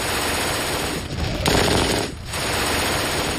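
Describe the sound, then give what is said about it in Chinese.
An MG42 general-purpose machine gun, belt-fed and chambered in 7.92 mm, fires with an extremely high rate of fire, producing a loud, dense, continuous roar of shots. The fire briefly dips twice and then resumes. “MG42 式通用机枪，它有着可怕的射速，使用弹药带，口径是7.92毫米，”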